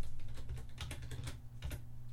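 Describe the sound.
Typing on a computer keyboard while searching for a verse: many quick, soft key clicks in an uneven patter over a low, steady hum.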